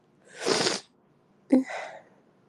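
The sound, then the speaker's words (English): A pug dog snorting: a longer breathy snort, then after a pause a sharper snort trailing into a softer breathy tail, with no talk. “Making your pug noises, huh, baby girl?”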